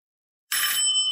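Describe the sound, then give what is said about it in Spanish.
A doorbell rings, an electronic chime that starts abruptly after silence and holds steady and loud with bright, sustained high tones. “timbre.”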